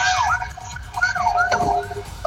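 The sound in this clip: A fire engine siren wails as another company's truck arrives at an incident near a supermarket after getting through traffic. Its rising and falling tones sweep repeatedly over a noisy background.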